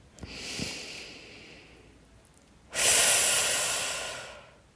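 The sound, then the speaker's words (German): One deep breath: a soft, airy inhale through the nose, then after a brief pause a louder, rushing exhale out through the mouth that slowly fades. “Und du kannst gerne tief durch die Nase ein und durch den Mund ausatmen.”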